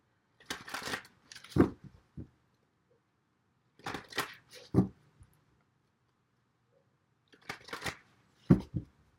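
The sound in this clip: Oracle cards are shuffled and drawn from a deck in three separate bursts of soft, papery riffling and slapping. Each burst is a quick cluster of rustles, separated by quiet pauses.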